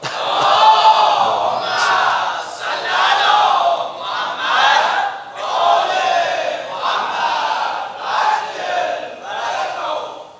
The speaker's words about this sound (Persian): صلوات خط کنید.